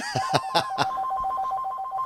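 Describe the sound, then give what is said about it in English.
A telephone rings with four quick bright chirping pulses at the start, then a continuing trilling ring tone at moderate loudness. “It is pretty creepy, right, when we're talking about this, that the phone rings.”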